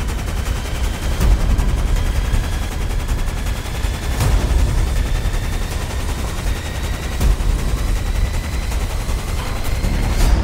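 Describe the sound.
Gunfire in a dramatised shootout: dense, sustained volleys that sound like rapid automatic fire, with a few sharper cracks standing out from the continuous rattle. No voices.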